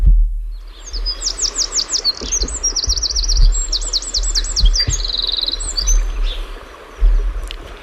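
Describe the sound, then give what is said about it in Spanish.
A Eurasian wren, a tiny, elusive bird in the Sierra de Aracena, sings one long, loud song of rapid, high-pitched trills and chatter over a low background rumble. “Ahora es un chochín lo que oímos, una ave pequeña y huidiza, una de las más pequeñas.”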